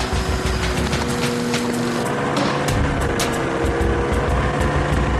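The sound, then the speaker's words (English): A small string-and-glue model aircraft propeller spinning flat out at about 5,500 revolutions per minute, making a loud, steady, buzzing drone with broad rushing noise that stays unbroken throughout. “his propeller will be spinning at 5,500 revolutions per minute”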